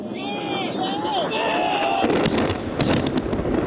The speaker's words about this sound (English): confirm that's bombs dropping on Man's Drack